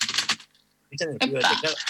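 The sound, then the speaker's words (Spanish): Computer keyboard typing opens a song, a quick run of sharp clicks, then a brief near-silent gap before denser, tonal, voice-like sound takes over. “Bueno, este ruido del teclado, ¿sabe de quién es?”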